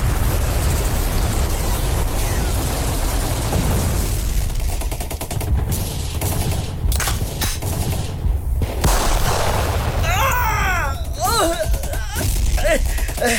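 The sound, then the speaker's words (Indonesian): Gunfire as fighters shoot at extremists in a wartime skirmish: several sharp shots crack through the middle over constant loud noise. Shouting voices follow near the end. “Hey, tembak itu ekstremis. Ayo tembak.”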